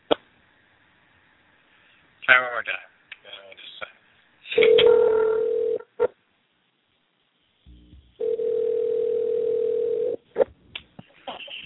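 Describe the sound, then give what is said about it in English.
A voicemail beep tone sounds twice as long, steady, mid-pitched electronic tones, the second longer than the first, with brief bits of voice and clicks around them. “When you hear the beep, do what you gotta do. At the tone, please record your message.”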